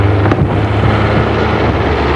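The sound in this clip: Engine rumble of an old black taxi driving along a dusty road toward a village: a constant low drone mixed with wind-like rushing noise, steady throughout.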